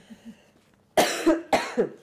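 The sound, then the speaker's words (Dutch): A coughing fit: a couple of faint throat sounds, then two loud, harsh bursts of coughing, each a double cough, with no talking. “Want het was wel een hevige hoestbui, dus het was niet voor publicatie vatbaar.”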